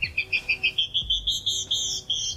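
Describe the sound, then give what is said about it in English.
A female canyon wren sings a rapid, evenly paced series of clear, high whistled notes. The song is bright and tonal, repeated about once every fifth of a second, and is heard alone without talk. “But many female birds do sing, even in colder climates, such as this canyon wren.”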